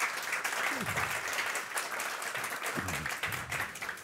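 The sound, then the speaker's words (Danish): Studio audience applause at a live show, a dense, steady clapping throughout with voices heard over it. “Velkommen til alle tre. Skal de ikke lige have en stor hånd?”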